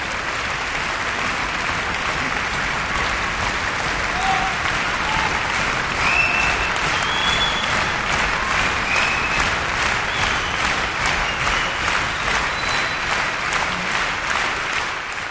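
Audience applause at a live stand-up comedy show: dense, sustained clapping from a large crowd that stays loud and even for the whole stretch without breaking off.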